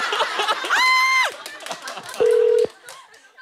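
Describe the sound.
A brief, steady telephone ringing tone sounds during an outgoing call, a single short low beep set among lively voices and other clattering sounds.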